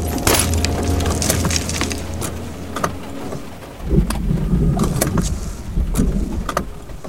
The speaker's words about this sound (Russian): Валерий резко выворачивает руль. Машину заносит. Сыпятся осколки переднего стекла.